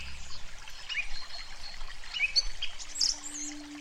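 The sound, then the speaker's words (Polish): Thin thread of water seeping out from under a stone: a soft, continuous trickling burble, with a few high bird chirps scattered above it. “przyszła do ciebie teraz, sącząc się spod tego kamienia. Na razie jest nitką. Przeskoczysz ją jednym krokiem.”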